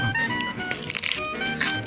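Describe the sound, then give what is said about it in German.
Crisp, loud crunches come from a raw carrot being bitten and chewed, with a few sharp bursts standing out among steady chewing. “Ich esse gerade die Möhre.”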